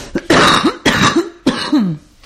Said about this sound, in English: I just had a cough.